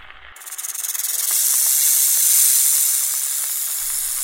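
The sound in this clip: Snake hissing from a hedge just before it bites: a bright, airy hiss that pulses briefly, then swells and holds as a steady, sustained rush with no voices.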